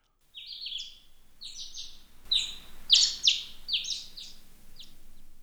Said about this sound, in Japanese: ああ、鳥の声が聞こえますね。